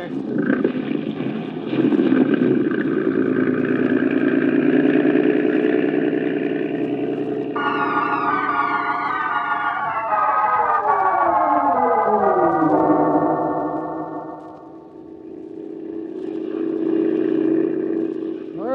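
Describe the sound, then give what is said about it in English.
A motorboat engine drones steadily as the boat sets off down a moonlit river. Its tone shifts midway, dips briefly near the end, then swells again. “Get in the boat”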